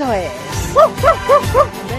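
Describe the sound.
A small dog barking happily, four bright, high yips in a quick, even rhythm, with a person talking at the start and alongside.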